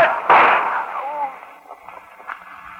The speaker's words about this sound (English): Don't shoot me again, boss.